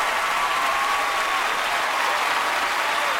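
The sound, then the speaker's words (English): An audience gives a standing ovation to a singer at a tribute concert. Dense, unbroken applause holds at an even, full level throughout. “Stevie and the rest of the audience give John a standing ovation.”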